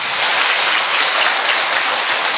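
A round of applause from a church audience at a Catholic mission station, a thick, even rush of many hands clapping together at a steady, loud level.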